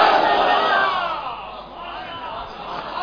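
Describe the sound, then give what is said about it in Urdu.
A crowd at a religious gathering shouts back in unison in response to the Nara-e-Risalat chant. The loud collective roar swells, dips briefly midway, then rises again. “سبحان اللہ! نعرہ رسالت.”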